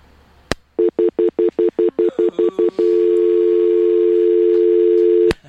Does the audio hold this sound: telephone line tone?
yes